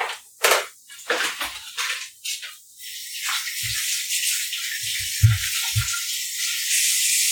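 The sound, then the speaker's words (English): Water from a running tap rinses tomato juice off someone's hands. A few scattered splashes and clatters come first, then a steady hiss of flowing water with several low, dull knocks underneath. “I'm gonna rinse my hands off. They're like covered in tomato juice.”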